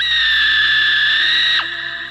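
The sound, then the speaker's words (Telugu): A woman's shrill, sustained scream as she wakes from a nightmare in a horror story, holding a steady piercing pitch before breaking sharply downward near the end and trailing off. “నిన్ను ఈరోజే చంపేస్తా అని దగ్గరికి రాగానే భవాని పెద్దగా కేకపెట్టి ఏడుస్తూ నిద్రలేచింది”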